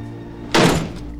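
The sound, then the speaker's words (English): A door being slowly closed, ending in a single dull thunk that fades over about half a second, over a faint steady hum. “Looking grim, Michael slowly closes the door.”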